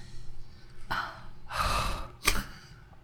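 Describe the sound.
Panting as someone catches their breath after a fright: a few heavy breaths, including a long noisy exhale and a sharp final gasp, with no talking.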